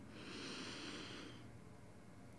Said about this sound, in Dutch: Dus adem in.